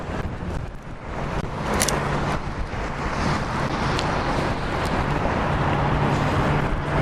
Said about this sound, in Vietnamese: Xe nhiều quá.